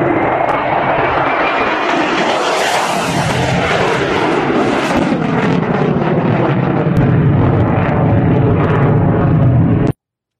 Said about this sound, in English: Let's go ahead and take a look at this clip of an F-35.